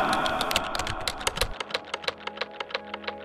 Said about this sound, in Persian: تا اینجا رو نوشتم، 3 نقطه گذاشتم، یه ذره به کلماتی که نوشتم خیره شدم